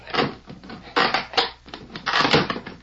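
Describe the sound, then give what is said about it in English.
A box is pried open in a few sharp creaking, cracking bursts with short pauses between them, irregular and moderately loud against a quiet background. “Here it is. I'll pry the box open.”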